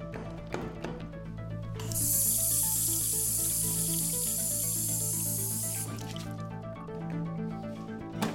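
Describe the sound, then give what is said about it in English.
Steady hissing spray of running water in a quiet bathroom at a large Bitcoin conference in a Miami convention center, lasting about four seconds over a soft background hum and faint clicks. “I will find myself on a very hot April weekend in Miami, alone in a bathroom with a small tape recorder at a very large conference.”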